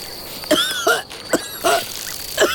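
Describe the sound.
Harsh coughing from a character choking on insecticide sprayed over a meadow: several short, spaced-out coughs over a steady, high, insect-like chirr.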